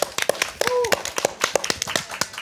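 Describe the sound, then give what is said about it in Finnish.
Applause from an audience at the start of a panel discussion in the Oodi central library, with distinct individual claps in an uneven rhythm and a voice briefly heard over them. “Alkuaplodit teille ja keskustelijoille.”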